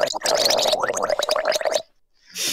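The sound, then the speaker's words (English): Someone gargles liquid in a rapid, bubbly rattle that runs steadily for almost two seconds, then stops abruptly, leaving a short silence before a faint hiss. “I couldn't hear you over the gargling.”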